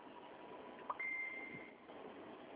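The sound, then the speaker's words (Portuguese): A phone message notification: a brief blip followed by a steady, high electronic tone lasting under a second, set against a faint background hiss. “Chegou mensagem aí, hein?”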